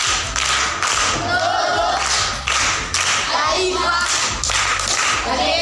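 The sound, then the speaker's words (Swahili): Applause for a pupil at a primary school classroom quiz: many people clap hands in uneven, bursting waves, mixed with dull thumps and taps, fairly loud throughout. “Makofi kwa mjomba.”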